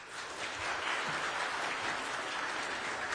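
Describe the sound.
Steady applause from an audience welcoming a speaker, a dense, even clatter of clapping that holds at the same loudness throughout, with no talking.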